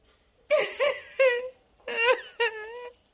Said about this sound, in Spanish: Rompe a llorar.